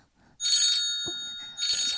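A phone rings with an incoming call: two bright electronic ringing bursts separated by a short gap, with a faint low sound in between.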